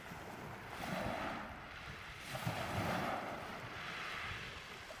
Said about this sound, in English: And if you hear some waves in the background, that is because I went to Brighton yesterday and I recorded the waves and I've added it to this episode.